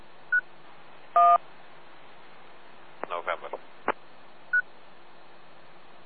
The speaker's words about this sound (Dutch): Er is altijd een pieptoon wat eerst uitgezonden wordt.